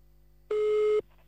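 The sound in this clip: A single steady electronic telephone line tone sounds while a caller rings a woman back. One clean, even beep lasts about half a second alone before the line falls quiet.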